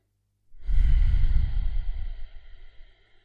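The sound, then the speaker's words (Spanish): One deep breath during a guided relaxation exercise: a long, full exhale that rushes in loudly, with a slightly voiced, sigh-like tone, then tapers gradually to near silence. “permítete ahora dar un par de respiraciones más profundas con las que empezar de cero.”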